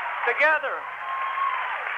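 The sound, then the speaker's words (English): Applause from an enthusiastic crowd of supporters at Clinton's campaign speech for the Democratic presidential nomination: dense, steady clapping throughout, with a raised voice briefly cutting above it early on. “With frequent interruptions by applause from an enthusiastic crowd of supporters, Clinton said the country is heading in the wrong direction fast.”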